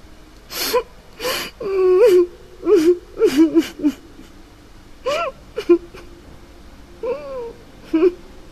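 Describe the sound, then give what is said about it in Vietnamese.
Crying echoes out of a dark toilet as a run of gasping whimpers and sobs, each breathy burst carrying a wavering, quavering pitch, rising and breaking off in uneven clusters. “Hình như nghe thấy tiếng khóc, nó phát ra từ trong bóng tối của nhà vệ sinh.”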